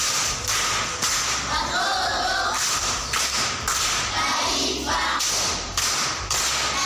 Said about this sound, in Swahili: Haya, makofi kwa mjomba.